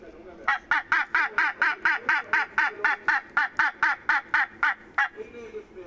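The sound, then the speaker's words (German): A northern gannet chick squawks in protest while a feather is plucked for sex determination. Many harsh, nasal squawks repeat in a fast, steady rhythm, fairly loud, then stop abruptly. “Und dann muss er auch noch federn lassen. Gut. Federn noch? Ja. Lauter Protest. Dabei muss die Feder ins Labor. Zur Geschlechtsbestimmung des Basstölpels.”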